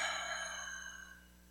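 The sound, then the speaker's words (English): One deep breath is let out like a gentle sigh, an airy rush that slowly thins and softens over a second and a half, alone without speech. “Take a deep breath.”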